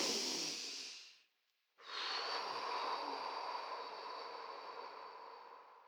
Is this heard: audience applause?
no